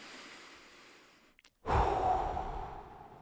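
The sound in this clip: A long, breathy sigh or intake of breath as someone pauses mid-speech. It follows a brief silence as a sudden, loud, rushing burst of air that swells and slowly fades, with no words spoken.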